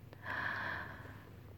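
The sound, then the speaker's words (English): One soft, breathy inhale, faint and drawn in for about half a second before tapering away into quiet. “Can you feel my calm breath on your neck? Should I breathe with me?”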